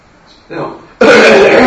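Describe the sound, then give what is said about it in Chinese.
A wet, phlegmy cough, given as an example of the cough tied to frothy, watery phlegm in a Chinese medicine class. A short, softer throat sound leads into a louder, harsher burst that lasts longer. “谁有咳给我听，就是很湿的那种咳嗽”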